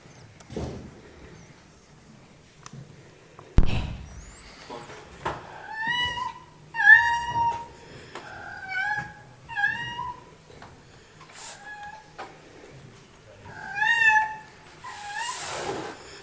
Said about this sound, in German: Jetzt wollen wir euch ein Video zeigen, warum die Katze unser Urterrorzwerg ist.